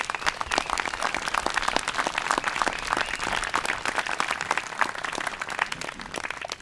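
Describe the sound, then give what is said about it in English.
Audience applause at a product launch gathering for a new bike project, many hands clapping loudly and steadily throughout with no break. “So how about everybody one last round of applause for this whole thing.”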